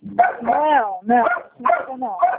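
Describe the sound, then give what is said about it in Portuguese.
A dog barks during a phone call, with several loud, drawn-out, tonal yelping barks in quick succession and no other sound between them. “o cachorro tá latindo”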